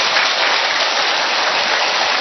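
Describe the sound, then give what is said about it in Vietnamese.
A Catholic audience applauds in celebration at Mass, a loud, dense and even clatter of many hands sustained without a break. “Lại một tràng pháo tay nữa để chúc mừng, thưa anh chị em.”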